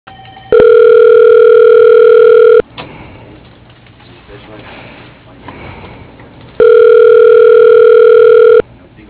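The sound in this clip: A telephone ringing on the line after dialing: two long, steady, loud tones, each lasting about two seconds, separated by a stretch of low hiss.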